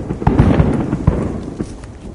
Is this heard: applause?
no